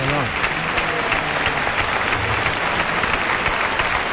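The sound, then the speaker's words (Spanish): A loud, unbroken ovation from the bullring crowd at the Maestranza greets Tomás Rufo as he dedicates the bull to José Antonio Carretero. The dense clapping holds steady throughout while a man talks over it. “Ahí está Tomás Rufo que brinda el toro a José Antonio Carretero entre la ovación de la maestranza.”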